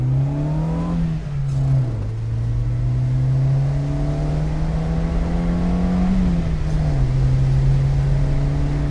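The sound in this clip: A Syrena roadster's engine drones loudly and steadily as the car accelerates along a road. Its low hum dips in pitch twice, once near the start and once near the end.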